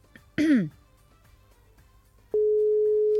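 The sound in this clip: A brief vocal sound, then a steady, loud, unbroken telephone tone that holds to the end, heard while placing a phone call to a listener.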